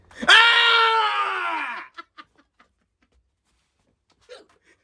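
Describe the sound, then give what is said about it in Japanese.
Hiccups: a loud, drawn-out voiced hiccup that sounds almost like a yelp opens the sequence, followed by a few short, faint hiccup sounds and one more brief sound after a pause. “もうしゃっくり出たから”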